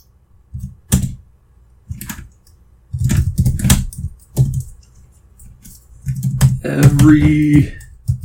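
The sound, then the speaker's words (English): Slow typing on a computer keyboard: a few scattered keystrokes and short clusters of clicks separated by long pauses, followed by a person speaking. “Everybody gets to hear how miserably slow I am at typing.”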